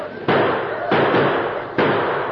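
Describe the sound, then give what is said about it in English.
Gunfire during a bank robbery: three sharp, loud cracks spaced apart, each followed by a long, noisy, rumbling tail. “I was terrified by the sound of gunfire and wild yells.”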